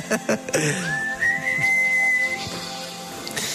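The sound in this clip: A crowd whistles along to a song at a live singalong. A single bright whistled line glides upward and then holds a long steady note over music and murmuring background noise.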